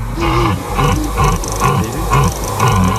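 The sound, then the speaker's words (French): A rutting stag bellows five deep, rough roaring calls in an even rhythm, each swelling and fading before the next. “avec un ciel dégagé et le brame du cerf en fond, ça c'est beau.”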